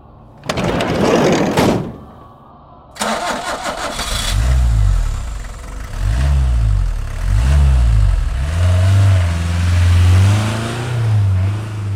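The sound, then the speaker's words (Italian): A van engine starts and pulls away: a brief burst of noise and a pause, then the motor catches, gives three rising-and-falling revs, and settles into a steady, louder drone as it drives off. No voices. “Poi il tipo alla guida ingranò la marcia e partì.”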